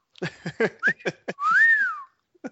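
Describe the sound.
Whistling: a quick run of short, chirpy whistled notes, then one long sliding note that climbs and falls away, and a brief faint note at the very end.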